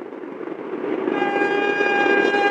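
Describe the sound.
A train passes with a broad rumbling rush that swells slightly, and from about midway a sustained high tone like a horn or whistle rings steadily above the noise to the end.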